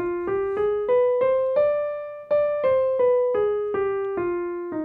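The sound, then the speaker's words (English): Single notes of the third mode of the harmonic minor scale starting on E flat, played at an even, steady tempo. Each clear tone fades away, and the line climbs in pitch, then comes back down. “So we're going to play our scale starting on the third note, which is the E flat. So now our harmonic minor scale sounds like this.”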